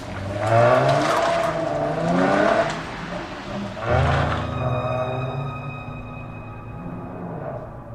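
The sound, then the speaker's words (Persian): A car engine revs loudly in a few bursts, then settles into a steady, droning hum as the car drives off down a street, slowly easing in level toward the end. “ماشین میره.”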